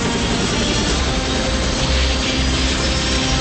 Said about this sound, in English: the three choppers take off